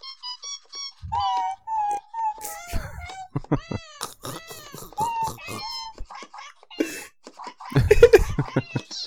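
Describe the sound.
Electronic meows from a toy cat piano, their tone altered by an effect dial setting: a run of short, varied mewing notes with bending pitches, broken by sharp clicks, with a louder burst near the end.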